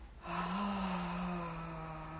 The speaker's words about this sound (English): I want you to breathe in very deeply, like this. And out like this.